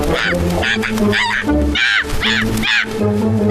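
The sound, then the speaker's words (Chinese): A raven caws several times in quick succession, loud, harsh and strongly harmonic, with a steady low tone beneath the calls. “我是渡鸦。 啊，原来你是渡鸦。”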